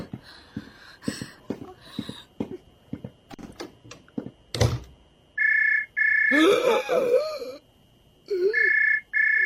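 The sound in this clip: Telephone ringtone: bright electronic tone bursts repeat in the second half, preceded by a run of sharp taps and one loud thud.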